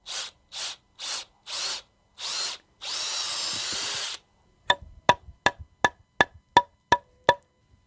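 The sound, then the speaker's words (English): Drilling into a maple tree to set a spile for syrup: five short whirring drill bursts, then one longer run, followed by a rapid series of sharp, crisp taps. “It's the sound of a spile going into a maple tree to bring out its delicious syrup.”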